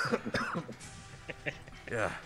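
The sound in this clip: A man coughs harshly: a few short, rough bursts near the start, another later on, mixed with people talking.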